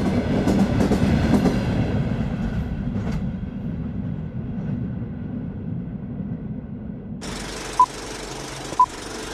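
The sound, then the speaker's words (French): A freight train locomotive pulling a computer-controlled convoy rolls along the rails with a steady rumbling, rattling drone. The noise eases slightly over time, and two brief sharp tones come near the end. “Le conducteur de la locomotive principale reçoit ses instructions de l'ordinateur qui contrôle le convoi.”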